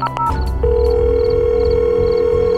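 A steady, unbroken electronic telephone tone sounds after a number is dialed on a phone, preceded by a few brief clicks and beeps.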